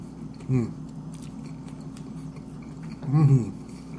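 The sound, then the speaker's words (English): Biting and chewing a Dairy Queen Loaded Steakhouse Burger with tangy barbecue-style sauce, heard as two soft, moist bursts of mouth noise over a low steady hum. “Going in for another bite.”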